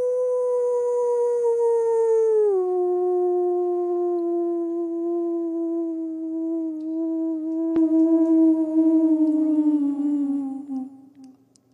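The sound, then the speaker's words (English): A person imitates a wolf with one long sustained howl. The voiced tone drops in pitch early, glides slowly lower, and fades out at the end. “Let me give you a quick howl and sip then.”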